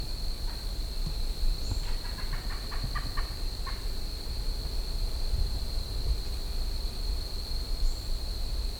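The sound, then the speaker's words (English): A rufous-bellied thrush sings a short burst of clear notes over a steady high whine and low background rumble. “I could not see that bird, but I assume it's a turtus rubiventris, and it may be the same bird I recorded just before this.”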